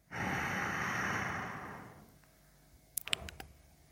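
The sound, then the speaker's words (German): Deep breath in, heard as a long, steady, airy rush of about two seconds that slowly fades, followed by a few faint short clicks. “Atme tief ein. Atme tief aus. Ein.”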